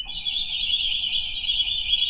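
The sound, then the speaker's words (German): A nightingale effect stop on an all-wooden pipe organ in a crypt in Bremen, whose only metal pipes belong to this stop, gives a continuous, high, bright twittering warble that holds steady and fairly loud throughout, with no voices. “Die Nachtigall. Dieses Effektregister hat mich nach Bremen geführt.”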